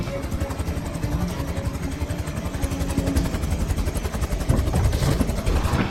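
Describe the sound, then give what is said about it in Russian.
A helicopter coming in to land while smoking, with a warning light on: a loud, continuous engine roar with rapid rhythmic rotor chopping, steady throughout and growing slightly stronger toward the end. “Вертолет идет на посадку.”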